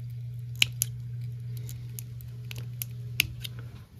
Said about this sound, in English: I actually take my scissors and I run it right along the bottom. Cut a nice slit in it, and that way I can pull it all up like that and trim it up nice and clean.